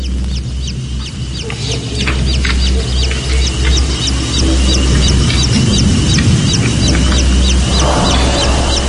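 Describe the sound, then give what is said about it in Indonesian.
Baby chicks cheep continuously in many rapid, high-pitched peeps over a loud, steady low hum. “suara anak ayam itu membuatku merinding sekujur tubuh.”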